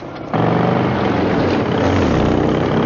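A motorcycle engine in a Twin Peaks scene (1990) cuts in abruptly after a brief quieter moment, then holds a loud, steady droning roar with a deep low hum underneath.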